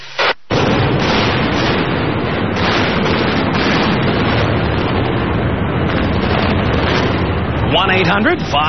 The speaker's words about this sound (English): The Tacoma Dome blowout. Oh, no, it's not. The Tacoma Dome is still there. It's the King Dome. All right, here you go. Fire.